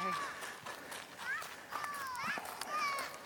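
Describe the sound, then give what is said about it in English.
Footsteps on a gravel trail, a steady run of crunching steps with bright whistling chirps over them. “We can walk this way on the gravel. This will be trail walk here.”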